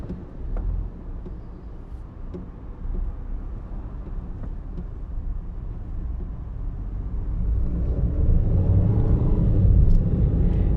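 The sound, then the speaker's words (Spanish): Steady low rumble of a car heard from inside while it is being driven, road and engine noise swelling louder toward the end, with no talk. “Pero recuerden que voy rumbo a casa, entonces voy manejando.”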